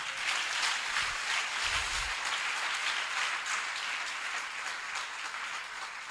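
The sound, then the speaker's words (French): Sustained applause from a church audience, a dense, steady wash of clapping that holds at an even level throughout. “On peut acclamer très fort le Seigneur.”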